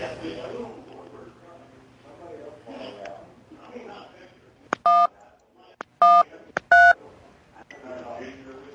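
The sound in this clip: Telephone keypad tones sound as buttons are pressed on a phone: three clear, sustained dual tones with short beeps around them. They follow a stretch of a person talking, and the voice returns faintly afterwards.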